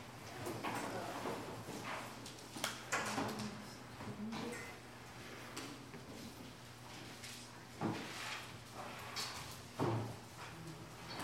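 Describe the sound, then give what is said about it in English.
Someone opens a Bible and turns its pages to Romans 3: faint rustling and soft handling thumps, with a few sharper bursts spread unevenly over a steady low hum. “Open my own Bible up to Romans 3. There we go.”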